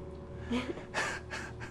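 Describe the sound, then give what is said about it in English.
A deep inhale and exhale of smoke from a joint, heard as a few soft, breathy rushes of air at moderate volume with short pauses between them. “inhales deeply, exhales, then smiles broadly.”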